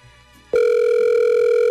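A telephone line tone sounds while a caller waits for an answer: after a short, quiet stretch, a loud, steady electronic tone starts abruptly and holds at an even pitch through the end.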